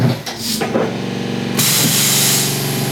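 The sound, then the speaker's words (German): Pneumatic hissing and machine hum from a beer bottle filling machine as its four large syringe-like fillers lower onto the bottles; a loud, steady hiss cuts in partway through over a humming motor with tonal whine. “Dann wird aufs Knöpfchen gedrückt und automatisch fahren die Füller runter.”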